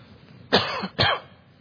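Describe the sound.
Two short, raspy throat-clearing bursts from a person with a tickle in the throat, a brief pause between them, fairly faint and with no talk around them.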